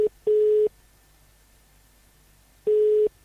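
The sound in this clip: Ringing tone of an outgoing telephone call: short, steady mid-pitched buzzing tones in pairs, each pair followed by about two seconds of silence, loud and alone.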